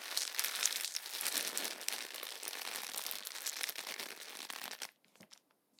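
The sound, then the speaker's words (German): Crumpled newspaper or paper squeezed and pressed by hand, a dense crackling and crinkling that runs on busily for several seconds before stopping abruptly, leaving a few faint rustles. “Knüllt das Papier oder Zeitungspapier zusammen, nehmt es in die Hand und drückt mal ein bisschen drauf rum. Und wenn ihr das dann macht, müsst ihr sich das ungefähr so anhören.”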